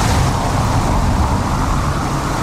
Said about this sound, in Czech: Přes Parmův most projíždějí auta ještě po dlažebních kostkách.